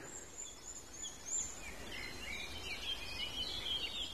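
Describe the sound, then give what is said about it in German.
Faint, high birdsong from similar bird species: scattered chirps and short trills drift over a soft background hiss, quiet throughout with no voices. “Ja, es ist ein leichter Unterschied in der Signatur, aber nicht großartig. Es sind ähnliche Vogelarten.”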